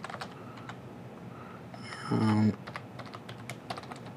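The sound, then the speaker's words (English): Computer keyboard typing as login credentials are entered for a remote desktop connection to a virtual machine. Quick, soft key clicks run steadily throughout, with a louder buzzing burst near the middle. “Go ahead and type that in.”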